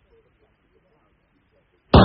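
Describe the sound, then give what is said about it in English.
A gunshot sound effect in an audio drama: near silence, then one sudden loud blast at the very end. “A neighbor saw the flash of the powder and heard the shot.”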